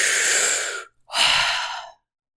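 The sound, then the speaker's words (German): A person gasps greedily for air after surfacing from water: two loud, airy, breathy rushes separated by a brief pause, with no talk. “Und dann durchbricht dein Kopf die Wasseroberfläche. Und nein, du atmest nicht nur so vorsichtig ein bisschen ein, so Nee, du schnappst wirklich gierig nach Luft.”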